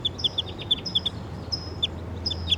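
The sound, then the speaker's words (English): A wild bird calling in the distance, sharp high chirps repeated many times in quick clusters over a steady low hum. “I hear the wild bird calling in the distance.”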